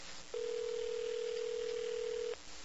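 A telephone ringback tone sounds while a call is placed: one steady, level tone lasts about two seconds, starting and stopping abruptly over faint background hiss.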